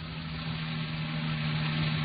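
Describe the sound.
A car engine idles with a low, steady hum and a faint mechanical drone, the level holding even throughout, as the car sits pulled up at an apartment house in a residential district.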